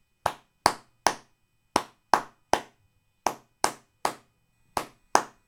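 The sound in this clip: Sharp hand claps open a song, eleven in all, falling in evenly spaced groups of three with short gaps between groups. Each clap is crisp and alone, with near silence between them.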